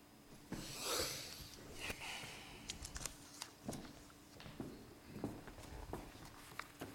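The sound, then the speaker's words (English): Two men trudge down the steps of a house, their footsteps landing as many quiet, irregular scuffs and thuds at a tired, uneven pace. “The two men, angry and exhausted, trudged down the steps of Hefty House.”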